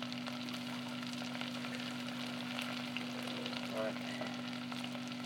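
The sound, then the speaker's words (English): Carrots cook in a pan, giving a faint, steady frying sizzle with occasional small stirring scrapes. A constant low hum runs underneath throughout. “Get a bit more of a stir and see if we've got any carrots.”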